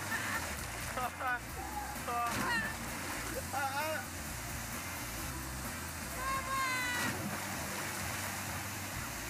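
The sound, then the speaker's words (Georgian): Splashing water from a canyoning jump off a waterfall into cold water, a rushing wash with a few brief splashes, joined by loud voices shouting and calling. “კანიონინგი, ჩანჩქერიდან ექსტრემალური ხტომა.”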